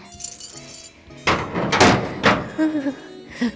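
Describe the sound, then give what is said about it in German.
A heavy iron door swings open after a bunch of keys jangles: bright metallic jingling first, then several loud, heavy thuds. “Rasch schwenkte das kleine Gespenst den Schlüsselbund. Die Eisentüre tat sich auf und dahinter begann ein schmaler unterirdischer Gang.”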